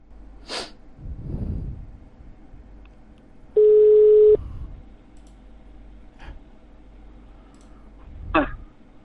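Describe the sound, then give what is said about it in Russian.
A single steady ringback tone from an outgoing phone call: one loud, mid-pitched beep lasting under a second, with breathy sniffs and snorts before and after it. “Сейчас я ему наберу. Звоню.”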